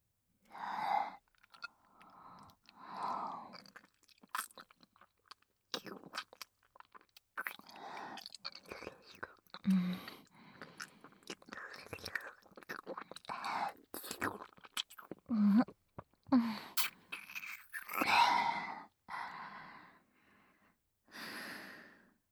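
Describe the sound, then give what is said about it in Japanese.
Wet kissing and lip-smacking in an intimate audio drama, with many soft, irregular smacks and breaths spread throughout, mostly faint. “次に不要な発言と判断した場合、こうして唇を塞がせていただきますので。”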